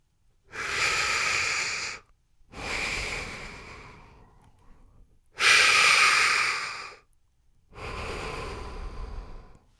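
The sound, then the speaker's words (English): Breathing through hands cupped over the nose and mouth: four long, rasping, hollow breaths like a wheeze, each lasting about two seconds, separated by short silent pauses and heard alone. “place them covering your nose and mouth. Then breathe through your hands. If it's working correctly, you should be making the sound like Darth Vader breathing, something like this.”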